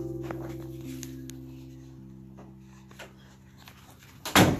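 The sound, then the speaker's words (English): A door is shut with a single loud thud near the end, after a stretch of quiet, steady hum. “oh, I had to shut the door there for a second. The wind here.”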